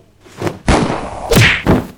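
A punch lands as a right hook with a heavy, dull thud, part of a quick flurry of a few loud, deep whacking impacts with little else around them.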